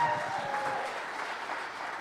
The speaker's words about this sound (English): Well, if you're going to clap, don't do it half-heartedly. Come on. Yeah. Make a loud noise to God. A loud noise.